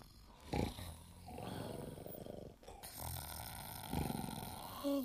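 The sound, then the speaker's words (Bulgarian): Townspeople asleep and snoring: a few rough, low, rattling snores rise out of a steady background hiss, each a short throaty burst. “И хъркат ли хъркат?”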